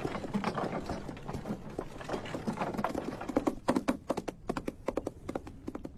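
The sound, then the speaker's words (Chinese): Horse hooves clip-clop as a horse is ridden, many sharp hollow knocks in an uneven rhythm that grows more distinct and spaced toward the end, with no talk. “秦基伟又骑着马去找郑部长。”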